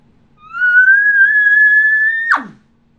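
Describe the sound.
A person imitates an elk bugle on a latex diaphragm call without a tube: one sustained, clear, whistle-like note that holds and creeps slightly upward, then breaks sharply downward into a short breathy puff of air.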